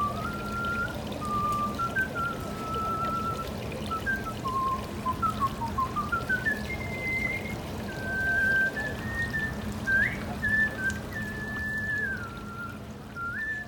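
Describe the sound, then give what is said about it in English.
A person whistles a tune beside a turtle pond, a clear, wavering melody of many held and gliding notes. It runs continuously over a constant low background noise. “And he still visits the turtle pond and whistles there every day.”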